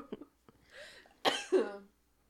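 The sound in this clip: A cough blamed on dust in a room: two quick, fairly faint bursts close together, after a few small clicks.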